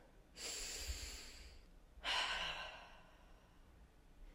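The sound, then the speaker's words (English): A slow, deep breath: two long, quiet, airy swells with a brief pause between them. The second begins more strongly and then gradually tapers away. “let's just take a deep breath together.”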